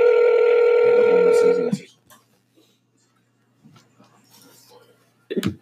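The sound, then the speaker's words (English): Ringback tone of an outgoing phone call that goes unanswered: one long, steady buzzing ring, then near silence broken by a few faint small noises. “So let's go and call him right now. And he doesn't answer.”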